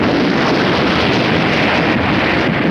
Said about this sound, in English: Lawson exchanges a panicked look with Davenport, then grips the control wheel as the ruptured duct plummets down into the water.